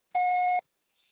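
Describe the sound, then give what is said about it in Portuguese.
A voicemail recording beep: a single steady, mid-pitched electronic tone about half a second long, sounding alone and clean, followed by silence and a very faint trace. “você só será tarifado após o sinal. Grave seu recado.”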